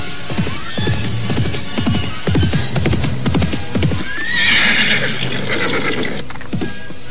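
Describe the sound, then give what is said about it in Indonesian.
Galloping horses come toward a group of guards, with dense, loud clopping hoofbeats that keep on throughout and a sharp whinny partway through. “Akan tetapi tiba-tiba mereka dikejutkan oleh derap kuda yang datang ke arah mereka.”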